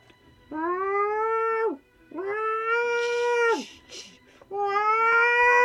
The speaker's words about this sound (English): As you dangle the mouse, the cat, who looked like she was about to curl up on the windowsill as it is perfectly in the sun, goes.